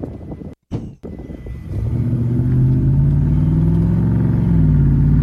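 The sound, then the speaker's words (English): Car engine revving with a K&N air intake: after some low rumbling, a deep, loud engine drone swells and holds steady, its low growl carrying a slowly wavering pitch. “That K&N sounds nice, though. Yeah, it does. K&N sounds bad as fuck.”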